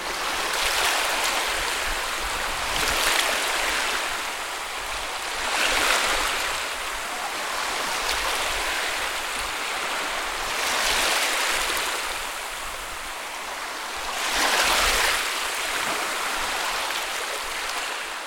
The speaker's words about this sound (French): Ah, on y est là, non? Au bord de la plage, tu es allongé sur ta serviette, en train de bronzer. Devant toi, il y a la mer.